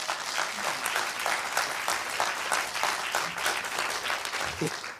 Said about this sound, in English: So would you please welcome the panel onto the stage?